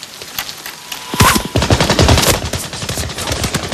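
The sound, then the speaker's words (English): Heavy machine-gun fire from German soldiers shooting at a runner: after a quiet start, dense rapid bursts break out and keep up as a loud, continuous rattling fusillade. “As Caparzo stands up for a look, the Germans riddle the runner's body with bullets.”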